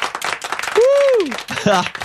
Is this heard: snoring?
no